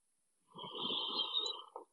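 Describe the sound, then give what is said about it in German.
Slow, deep exhale during a guided breathing exercise: one soft, breathy whoosh of air lasting over a second, quiet and steady, ending with a slight final puff. “Und atme aus über Schlüsselbeine, Brustkorb und Bauch.”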